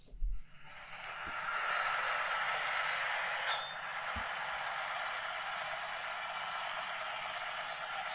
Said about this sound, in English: Sounds like a V8. Kind of does. Let's hear it rev up.